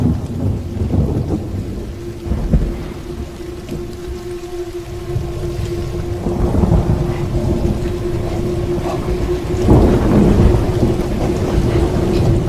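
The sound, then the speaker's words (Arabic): Heavy rain hisses steadily while deep rolling thunder rumbles swell and fade several times, with a faint sustained hum running underneath. “بدات اسمع صوت الرعد”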